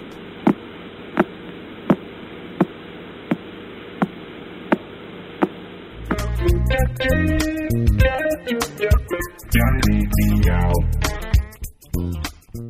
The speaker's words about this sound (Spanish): Se trata de un pulsar situado cerca de la constelación de Auriga, en el hemisferio norte, que gira a cerca de 1,4 veces por segundo y que suena así.